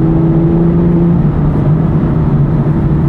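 Car engine revving as the driver drops down a couple of gears, a loud, steady low drone with a smooth, even tone that shifts slightly partway through, heard alone.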